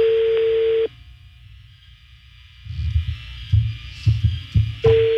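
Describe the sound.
Telephone ringback tone heard while a call is redialed: a steady, even tone at the start cuts off, low thuds and rumbling fill the gap, and the same tone returns at the end.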